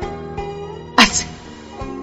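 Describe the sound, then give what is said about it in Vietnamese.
Several people sneezing at once, heard as one sudden, sharp sneeze burst in the middle of a steady, humming tonal background. “Công Tôn, Triệu Phổ, Triển Chiêu, Bạch Ngọc Đường đồng thời hắt xì một cái.”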